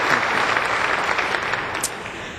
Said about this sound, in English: Dangerous to clap before the sermon begins.